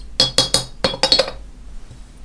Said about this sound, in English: I have almost forgotten my green tea, so let me just pour that now, give it a quick stir,